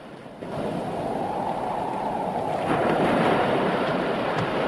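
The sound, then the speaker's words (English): Waves crash against a large white rock on the coast in a steady, broad roar with wind noise. The surge swells slightly louder near the start and again past the midpoint, with no voices. “waves crash against a large white rock near the coastline”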